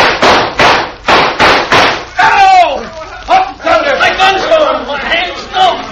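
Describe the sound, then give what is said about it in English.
Gunshots ring out in a western-style shootout: a rapid series of about five sharp, loud bangs, followed by excited shouting voices. “Now, shoot at their guns.”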